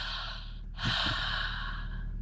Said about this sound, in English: Take a deep breath.